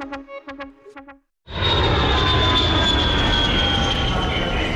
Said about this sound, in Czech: Poletíte z letiště Václava Havla Praha? Máme pro vás 5 jednoduchých tipů pro hladký odlet.